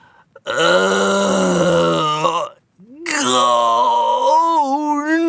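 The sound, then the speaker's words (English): A person with a throbbing toe gives a disappointed groan: two long, drawn-out moaning vocalizations, the second sliding upward in pitch and wavering toward the end. “I wasn't hungry moaning or monster groaning. My toe throbbed, and I was disappointed. So I went,”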